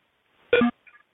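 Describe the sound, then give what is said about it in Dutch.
Telephone dialing tones as someone calls in from another handset: a short, loud tonal burst, then a couple of faint, brief beeps. “Ik bel even met een ander toestel in.”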